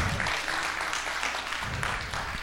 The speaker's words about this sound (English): Let's give Jesus a big hand clap for this offering.